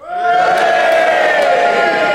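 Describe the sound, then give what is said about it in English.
A studio audience at a panel game show cheers and boos together: a loud, sustained roar of massed voices that swells in quickly and holds steady for about two seconds. “Now, if you agree that it was not tobacco, then you cheer with Peter Jones. And if you agree that it was tobacco, you boo for Derek Nimmo, and you all do it together now.”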